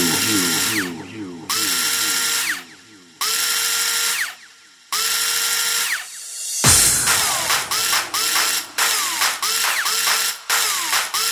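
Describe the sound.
Screw being driven in by a powered driver that whines and rattles in about four long bursts separated by pauses, followed by a denser run of shorter, choppy bursts.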